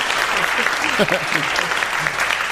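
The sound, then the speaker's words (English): Dense, steady applause at a celebration marking a year of Tiki Mondays, a sustained crowd clapping with voices briefly audible beneath it. “That's a long applause, and that's a well-deserved one.”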